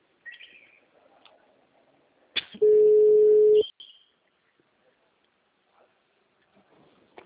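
On an outgoing phone call, one steady electronic ringback tone lasts about a second, loud and flat in pitch. Brief faint chirps and clicks come before and after it.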